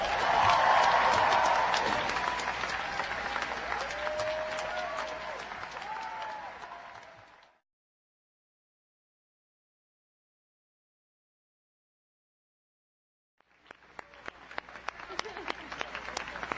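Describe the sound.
An audience applauds to welcome a speaker at the Princeton University Class Day ceremony. The applause is loud and fades over several seconds, then stops into silence, and clapping starts again at the end.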